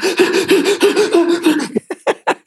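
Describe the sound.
A voice imitates panicked hyperventilating breathing like a horror-film victim: rapid, voiced, pulsing gasps at first, then several short, sharp, separate breaths, all loud and close.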